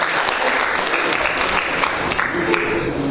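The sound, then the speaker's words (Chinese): Audience applause at a talk, dense steady clapping that holds an even loudness for about three seconds with no clear voices over it. “好，谢谢他们，跟他们鼓掌一下。”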